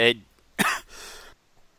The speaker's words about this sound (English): Excuse me, getting over a cough here.